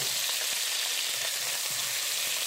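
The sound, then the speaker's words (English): Ginger paste fries in a pan with garlic paste for a chickpea curry, giving a steady, loud, crackling sizzle that never lets up and has no talk over it. “And then we are going to add on the ginger paste.”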